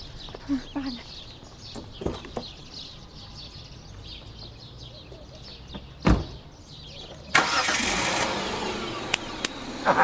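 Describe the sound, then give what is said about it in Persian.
A car engine being started: a sudden broad roar begins partway through and holds steady to the end. Before it there is low background noise with scattered clicks. “شما لطفا یه استارت بزنید”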